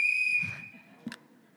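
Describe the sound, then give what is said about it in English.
A single whistle blast starts a timed game: a high, steady tone that holds and then fades, followed by a brief click. “So whenever you hear the whistle, that's when we're going to start.”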